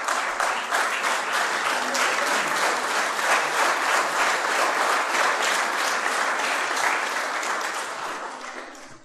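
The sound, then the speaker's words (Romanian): A church audience applauds in welcome, a dense, sustained clapping from many hands that keeps an even loudness for several seconds before tapering off at the end. “Să-l aplaudăm și să-i spunem și noi, bine ai venit în mijlocul nostru.”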